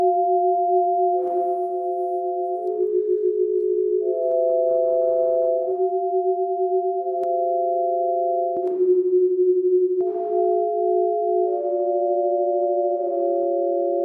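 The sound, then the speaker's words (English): Musical tone portraits of people's faces: sustained, pure electronic tones sound two or three at a time as steady chords. The chords shift to new pitches every second or so, many times in a row, with no voices. “I point at them with the eye and I write down the different notes I hear. And then I create sound portraits. Here's some faces.”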